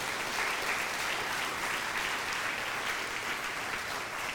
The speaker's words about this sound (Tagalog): Sige, palakpakan natin ang Panginoon.